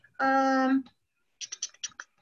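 Keys clicking on a backlit computer keyboard being typed on in the dark. A brief steady voiced tone comes first, then a quick run of a few light, crisp keystrokes after a pause.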